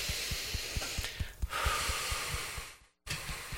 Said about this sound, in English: I'm going to have you just do your fingers and just kind of big, deep breaths.